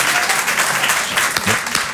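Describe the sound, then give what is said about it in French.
Applause from an audience fills the stretch with a dense, steady wash of clapping that swells slightly and holds at a loud, even level for about two seconds, with no speech over it. “Moi aussi, je m'applaudis”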